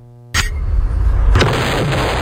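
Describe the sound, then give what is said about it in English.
A hand grenade explosion sound effect: a sudden loud blast that bursts again about a second later and then fills into a sustained, rumbling roar, with no voices. “It's the hand grenade”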